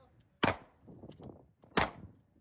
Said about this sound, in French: Des exercices de tir.